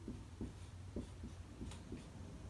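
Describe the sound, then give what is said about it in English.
Pen strokes drawing a giant circle while writing: a steady series of soft, scratchy rubbing bursts, evenly spaced and fairly faint, with no talk. “I'm gonna try to draw a giant circle.”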